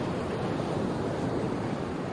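Sea surf rolls onto a shore as the tide comes in: a steady, loud, unbroken roar with no separate wave crashes.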